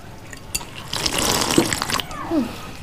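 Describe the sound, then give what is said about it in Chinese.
Tap water gushes for about a second as hands are washed roughly and noisily, with a few splashes and knocks around the basin. “你洗手之后能不能轻点啊？你多少年了都改不过来。”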